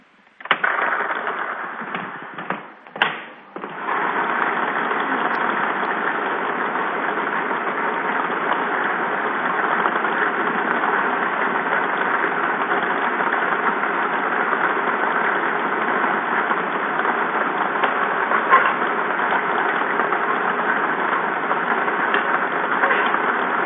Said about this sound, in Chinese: 好的，马上为你启动摇奖机。